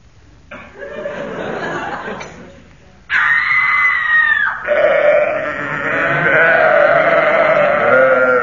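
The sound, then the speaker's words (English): A comic sound effect combines a woman's scream with a sheep's bleating, heard as loud, wavering cries that continue for several seconds with no talk over them. “That was a Vestal Virgin tripping over a sacrificial sheep”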